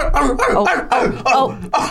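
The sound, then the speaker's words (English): A sleeping dog yips and whimpers while dreaming. Several short, pitched bursts come in a quick, uneven run, clear and fairly loud. “Oh, he's having a little doggy dream. Oh my God, it's so cute. Do you think he has dreams like we have dreams? I don't know. I think maybe he thinks he's running.”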